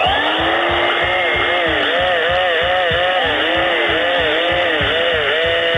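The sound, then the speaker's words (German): A vacuum cleaner and a power drill are played as musical instruments. A loud, continuous motor drone carries a steady rhythmic pulsing, while repeated swooping rises and falls in pitch ride over the top. “Heute zwei Instrumente, die out sind und wohl auch für immer out bleiben werden. Der Staubsauger und die Bohrmaschine.”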